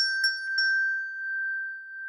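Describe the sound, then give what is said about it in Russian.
A small bell rings with three quick, light strikes, and a bright, high, pure tone sustains evenly after them. “позвонила в колокольчик, колокольчик и зазвенел.”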